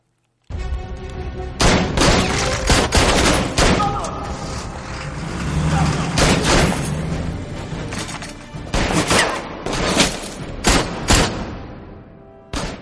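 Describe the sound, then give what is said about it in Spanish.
Gunfire from a man shooting in a spy action-comedy shootout: many loud, sharp cracks in rapid bursts over a continuous rumbling background. “Adolfo ha disparado, pero no ha dado ni a uno.”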